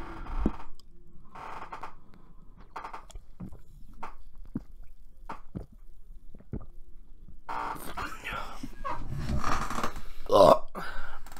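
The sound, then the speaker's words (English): Someone takes a drink of a beverage close to the microphone. A few soft, scattered clicks and sips lead into louder, rougher gulping and swallowing noises near the end. “One more ASMR thing right now. I'm gonna take a drink of my drink.”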